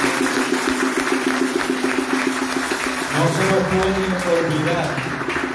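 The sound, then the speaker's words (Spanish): Audience applause honoring young people who have graduated or are about to graduate or be confirmed: a dense, steady wash of clapping that runs throughout, with a voice speaking over it. “Así que yo creo que debemos darle otro aplauso.”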